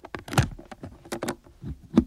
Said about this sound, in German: Geben Sie mir den Schlüssel zu Ihrem Kasten da.